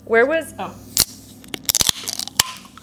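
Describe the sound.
Drink cans, cranberry and blood orange flavours among them, being cracked open: after a short burst of talk come several sharp snaps and clicks, some clustered close together.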